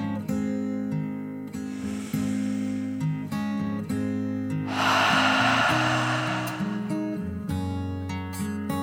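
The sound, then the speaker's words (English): A deep breath in and out over calm, sustained music: a soft, airy inhale, then a longer, fuller breathy exhale, with gentle tones underneath throughout. “Then she took another deep dragon breath, in and out.”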